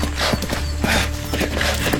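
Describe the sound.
Horse hooves clip-clop in a steady, repeating rhythm on a road leading into town, with crisp knocks over a continuous low rumble and no voices.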